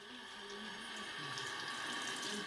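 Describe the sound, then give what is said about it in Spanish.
Water runs from a tap as hands are rinsed, a faint, steady hiss and splash that stays even throughout with no pauses. “Úrsula Pérez Lem recomienda, además de desinfectantes, enjuagar el virus de las manos”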